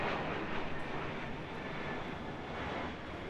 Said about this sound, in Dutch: Kan je er aan wennen, aan die vliegtuigen?